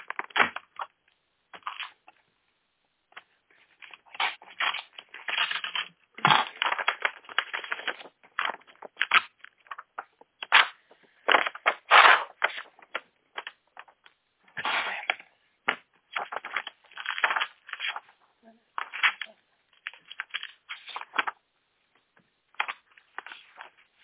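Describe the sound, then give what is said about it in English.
Envelopes being torn open and handled: paper rips, crinkles and rustles come in many irregular bursts over the whole stretch, some sharp and loud, others soft, with no talk. “just getting all the envelopes open”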